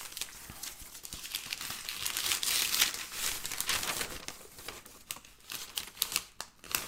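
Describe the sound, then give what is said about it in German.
Paper crinkling and rustling as a book wrapped in newspaper is unwrapped: a continuous dry crackle with sharper snaps and tearing near the end, and no voices. “das ist ein Buch, das ist eingepackt, ein Zeitungspapier, drauf steht Trottel, natürlich.”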